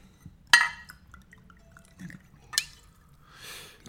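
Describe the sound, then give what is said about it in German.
Wine is poured into glasses: quiet, with a few sharp glass clinks and a soft, hissing pour of liquid toward the end. “würdest du bitte den Wein nachschenken?”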